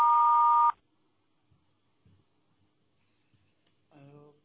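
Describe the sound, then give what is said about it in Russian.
An answering machine sounds a single steady mid-pitched beep lasting under a second. Near silence follows, and then a voice starts speaking at the very end. “Вас приветствует автоответчик. Оставьте сообщение после звукового сигнала.”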